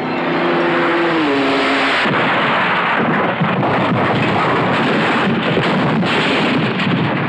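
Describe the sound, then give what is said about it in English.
Race cars speed around the Le Mans circuit: a loud engine whine dips slightly in pitch and gives way after about two seconds to a continuous, powerful roaring rush that holds to the end. “Le Mans, where hour by hour, lap after lap, the man-to-man competition of champions never stops.”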